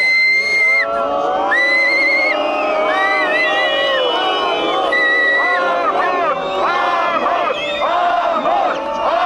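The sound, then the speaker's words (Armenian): Protesters outside parliament whistle at the vote results: many shrill, overlapping whistles sliding up and down in pitch over loud crowd noise, sustained without a break. “Արդեն 3-րդ օրը խորհրդարանի դիմաց բողոքի ակցիա կազմակերպող ակտիվիստները սուլոցներով ընդունեցին խորհրդարանի քվեարկության արդյունքները։”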